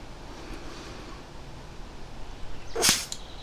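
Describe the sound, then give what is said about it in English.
A dart shot at a knot on a tree about 10 meters away lands as a single sharp, brief thwack near the end, alone over a low, steady outdoor hiss. “As an example, let's take this 10 meter shot and shoot at that knot on that tree about 10 meters away.”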